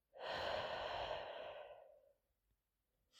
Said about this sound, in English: Let's take three cleansing breaths in through the nose and out through the mouth,